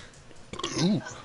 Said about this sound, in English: a little burp, excuse me